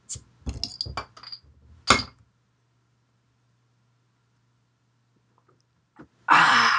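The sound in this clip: Glassy clinks and rattles as a bottle of Elysian Immortal IPA beer is handled, then a long quiet gap before a sharp, loud hiss as the cap is cracked open at the end.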